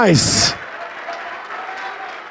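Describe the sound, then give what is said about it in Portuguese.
A church audience applauding: a loud raised voice opens the moment, then a steady, fairly quiet wash of clapping continues on its own. “vem, vem, ô glória, vamos aplaudir mais”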